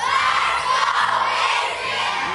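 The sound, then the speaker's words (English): A stadium crowd at an American football game cheers and shouts after a touchdown, a loud, dense roar of many voices sustained throughout the short burst. “After the score, the crowd erupted with joy and fans cheered.”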